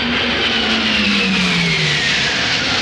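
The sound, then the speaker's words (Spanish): Jet aircraft roar low over a beach, a loud continuous rushing noise with an engine whine that falls steadily in pitch as they pass. “Los jets están a punto de llegar. Tienen 30 segundos para bombardear la estación. Retire a sus hombres y bajen las cabezas. Será una fiesta de campeonato. Los reactores sobrevuelan la playa.”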